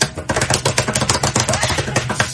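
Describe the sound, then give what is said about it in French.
A paintbrush, rinsed in turpentine, is struck again and again against the edge of a table, making a loud, rapid run of sharp slapping taps that continues without a break and with no talk. “On va laver le pinceau comme ça, là. On le tend dans la térébenthine, puis après ça, on va le frapper comme ça, là.”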